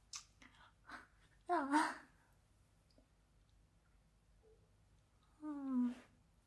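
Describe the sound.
Soft, close chewing of food: a few moist clicks and crunchy bursts, faint overall, with a quiet voice speaking between them.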